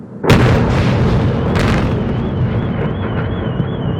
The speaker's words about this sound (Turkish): Rusya'nın balistik füzeler kullandığı saldırılar 2.45 sularında başladı. Ard arda meydana gelen patlamalar şehrin semalarında yankılandı.